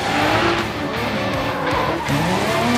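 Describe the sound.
Tires squeal and an engine roars as a 1200-horsepower race car with a full carbon-fibre body drifts at high speed, giving a loud, continuous screech whose pitch wavers throughout.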